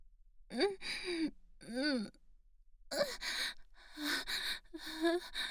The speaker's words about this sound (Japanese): 脇の下に鼻息すごく立てる。